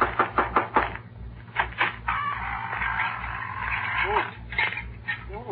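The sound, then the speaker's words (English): Knocking on a door opens with a quick series of sharp raps. A few more knocks follow amid people talking, all over a low, steady pulsing hum. “I better knock on the door.”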